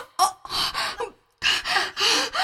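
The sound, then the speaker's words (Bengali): A person struggling to breathe gasps for air in a series of loud, harsh, rasping breaths, with a brief silent pause midway. “নিঃশ্বাস নিতে পারছি না।”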